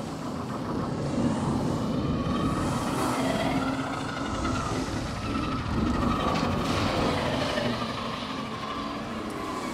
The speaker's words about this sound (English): That's our airships arriving now.